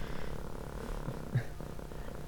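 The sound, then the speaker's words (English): A cat purrs softly and continuously, a faint, low, steady rumble that holds evenly from start to finish without a break. “Hi, cat. Yep. I keep pushing her off, but I can't do it anymore. Here she is.”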